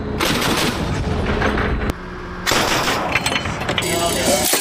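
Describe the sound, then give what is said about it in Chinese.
Rapid gunfire from a military company's live-fire shooting assessment, loud and dense bursts of shots that run for about two seconds, break off briefly, then resume just as heavily to the end. “这是上级组织的一次实弹射击考核”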